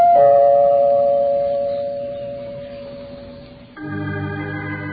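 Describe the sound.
A household doorbell chimes loudly and alone. A long ringing tone slowly fades, then a second chime tone sounds near the end.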